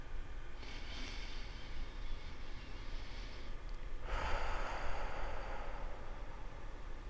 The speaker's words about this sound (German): So, jetzt atme dreimal tief und kräftig ein und aus.